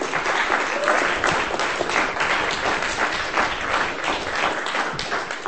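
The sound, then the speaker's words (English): Audience applause welcoming a comedian to the stage at a live reading, a dense, continuous wash of clapping that holds steady and loud from start to finish. “Michael Bradley, ladies and gentlemen, give him a hand.”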